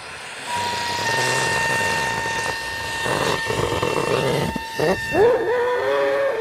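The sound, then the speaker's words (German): Helium flows from a gas cylinder into a weather balloon during a measurement campaign near Cologne, making a steady rushing hiss with a thin whistling tone over it, then a few squeaky, gliding rubbery tones near the end. “Ein Wetterballon wird mit Helium aus einer Gasflasche gefüllt. Er wächst und wächst, bis er nach gut 1,5 Minuten einen Durchmesser von etwa 1 Meter erreicht.”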